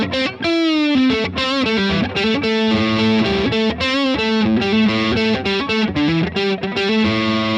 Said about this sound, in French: Je vais vers la pentatonique de La à la cinquième case.